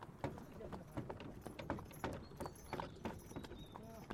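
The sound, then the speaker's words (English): Hooves of a horse pulling a wagon clip-clop in a steady, even rhythm, with many sharp hoofbeats following one another throughout at a moderate level. “Give my sound effects a second to load here. As we get back to wagon journey.”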